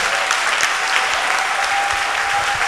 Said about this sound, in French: Donc je veux que tu acclames Dieu.